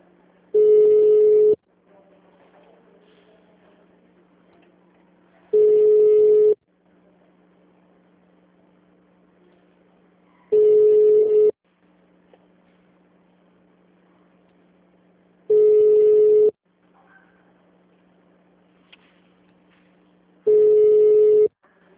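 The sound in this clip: Ringback tone of a phone call that goes unanswered: five steady single-pitch tones, each about a second long, repeat evenly about every five seconds, with only a faint low hum in the gaps.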